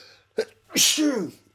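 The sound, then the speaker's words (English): A single human sneeze: a brief sharp intake, then a loud, voiced burst whose tone falls as it trails off. “And then I realized, oh, I'm going to sneeze.”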